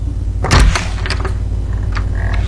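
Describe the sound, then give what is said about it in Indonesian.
An unlocked door is opened with a dull thump, followed by a few light clicks and rattles over steady background noise. “Buka saja pintunya. Tidak dikunci kok.”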